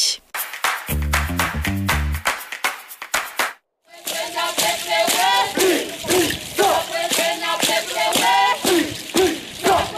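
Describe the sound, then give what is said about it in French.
Traditional Kanak dance chants ring out at a celebration day in Nouméa. Rhythmic percussive beats with low pulsing tones come first, then a brief pause, then loud group chanting punctuated by sharp clap-like accents. “Des danses traditionnelles kanak pour accompagner ce jour de fête à Nouméa.”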